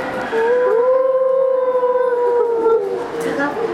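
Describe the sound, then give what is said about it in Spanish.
A wolf howls in a forest, one long, drawn-out tonal cry that climbs at the start, holds steady and then slowly sinks, loud and alone. “Sofía y María José caminando por el bosque cuando de repente escucharon a unos lobos.”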